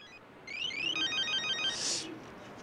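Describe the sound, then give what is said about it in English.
A mobile phone rings on a balcony with a bright electronic ringtone of quick, high, repeating melodic notes. It starts after a brief quiet moment, stays steady, and ends with a brighter burst. “Sitting upon his balcony smoking, the photographer answers his mobile phone.”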